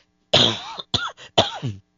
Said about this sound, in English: I apologize for coughing your ear there, folks.